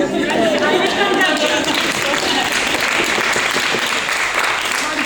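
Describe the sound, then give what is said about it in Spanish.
An audience at a feminist gathering applauds, a dense, loud and continuous clapping with cheering and chatter mixed in, holding steady for the whole stretch. “Y este aplauso también para mi salud.”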